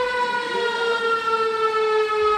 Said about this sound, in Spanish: Sirena esta mañana en el 90 aniversario del ataque aéreo Otxandio, en el que fallecieron 61 personas, en su mayoría mujeres y niños.